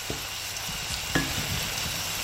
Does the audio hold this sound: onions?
yes